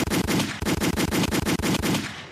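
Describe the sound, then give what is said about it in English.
Gunshot sound effect in the form of rapid automatic fire, many sharp, loud shots in a fast, steady rhythm with no pauses. “the gunshots”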